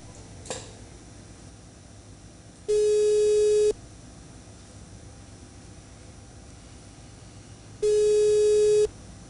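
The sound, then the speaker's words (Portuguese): Telephone line tones sound while a call is being transferred to a pharmacist. There are two sustained electronic beeps, each about a second long, separated by a few seconds of faint hiss, with a small click near the start. “Peço que o senhor aguarde em linha, que estou transferindo a ligação para o farmacêutico”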